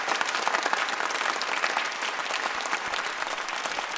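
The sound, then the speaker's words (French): Sustained audience applause, a dense, even wash of many hands clapping at a steady loudness for about four seconds, with no voices over it. “c'est curieux parce que j'ai l'impression que c'est pas tout à fait les mêmes applaudissements. Ça, vous voyez, c'est plus franc.”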